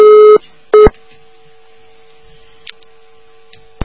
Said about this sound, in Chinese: 哎呀，真可惜，掉线